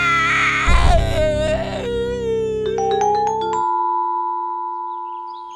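A child crying in loud, sustained wails with strong harmonics, the sobbing breaking off partway through and leaving steady tones ringing alone.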